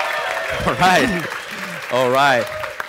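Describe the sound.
About 200 property management entrepreneurs at a live summit in West Palm Beach, Florida cheer and whoop over light applause, in two short bursts of shouting voices.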